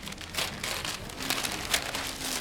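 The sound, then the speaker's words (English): Wrapping paper crinkles and tears as Christmas gifts are ripped open, a continuous crackly rustle with a few sharper, louder rips standing out, no voices present. “They rip open the pretty wrapping paper and each take out a pair of black swimming trunks.”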